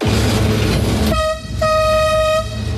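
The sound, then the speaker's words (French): Driver's cab of the Petit train de la Mure in Isère: a low engine rumble with rail noise, then two sustained horn blasts, the second one longer. “On entend beaucoup de bruit, c'est impressionnant une cabine de train comme ça. Effectivement, on a beaucoup de sons entre le bruit de la machine, le bruit des rails qui peut craquer un petit peu, le klaxon.”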